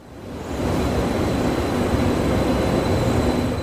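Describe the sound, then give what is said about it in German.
A regional passenger train running on tracks between Lübeck and Kiel, a steady loud rumble of wheels and carriages that builds within the first half-second and then holds evenly, with a faint high whine above it. “Noch fahren die Nahverkehrszüge zwischen Lübeck und Kiel ohne Probleme.”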